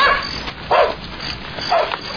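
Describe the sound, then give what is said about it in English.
Two sharp, mid-pitched dog barks spaced about a second apart, fairly loud and clear, from a dog on a lawn, with no voices over them. “Hey, you and the dog! Hey, keep that mutt off my lawn, will ya?”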